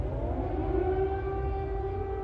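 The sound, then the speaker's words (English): An air raid siren sounds during heavy bombardment of Kyiv by Russian airstrikes, a loud, sustained, wailing tone holding a nearly steady pitch over a low rumble. “Air raid sirens sounded as the capital came under heavy bombardment from Russian airstrikes.”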